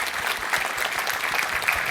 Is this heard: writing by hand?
no